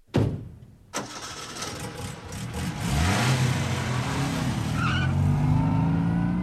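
An early motor car starts up and drives off: a sharp thump, then an engine roar that builds and settles into a loud, steady running note that slowly rises in pitch.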